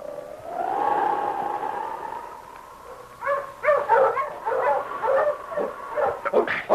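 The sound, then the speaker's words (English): A noisy hound by a sled gives a long, drawn-out whining howl, then bursts into a rapid run of sharp barks and yips that keeps going to the end. “Shut up, you noisy hound.”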